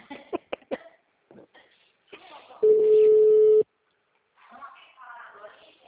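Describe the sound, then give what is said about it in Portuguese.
A telephone tone from a failed phone call: a single steady, mid-pitched tone lasting about a second, set between stretches of people talking. “Tá dando ligação, falhou.”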